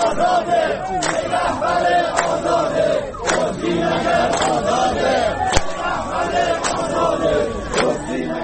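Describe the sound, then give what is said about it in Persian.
Crowd of protesting retired social-security pensioners in Iran chanting slogans, loud massed voices in a rhythmic pattern with sharp regular beats about once a second throughout. “این صدای گروهی از معترضان در عراق است.”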